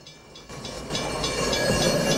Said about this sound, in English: A train rockets towards him.